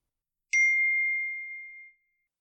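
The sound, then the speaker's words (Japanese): A single bright notification chime from the LINE messaging app, a clean ringing tone that starts sharply and fades away over about a second and a half, alone against silence. “花助に LINE が来ました。”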